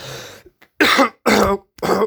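Throat clearing from hay fever: a person hacks to clear a blocked-up throat in three loud, harsh, rasping bursts, each lasting about a quarter second, after a softer throaty rumble and two tiny catches.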